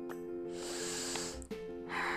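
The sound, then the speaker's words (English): Deep breathing during a guided meditation, in through the nose and out through the mouth: a soft, airy rush of breath that swells and fades over a steady, faint musical tone, with no talk. “Let's begin by taking a deep inhalation through the nose and exhale through mouth,”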